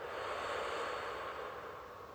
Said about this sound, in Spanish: Inhalo profundo y suelto por la boca.